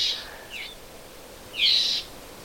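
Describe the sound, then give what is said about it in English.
Red-eyed vireo complaining calls: a few harsh, nasal, high calls alone. The last is longer and louder, and a fainter one comes between the first and last. “That's the vireo, the red-eyed vireo, and it's, I call it a complaining sound. It's a communication, and it does seem to be when they're a little upset.”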